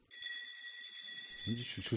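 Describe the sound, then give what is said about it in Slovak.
A small bell rings to call children upstairs, giving one high, bright ringing tone that holds steady for over a second. A voice then starts talking as the ring trails off. “Ten zvonček zavolá všetky deti na stretnutie hore na poschodí.”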